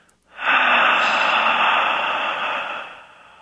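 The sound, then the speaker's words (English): A long, slow exhale on an H sound during a guided breathing exercise: a steady, airy hiss that lasts a few seconds and gradually tapers off. “Breathe it in nice and deep. And exhale on an H, nice and long.”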